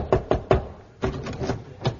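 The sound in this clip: Knocking on a door as a radio comedy sound effect: three quick, sharp raps, then a pause and a second, looser series of softer knocks.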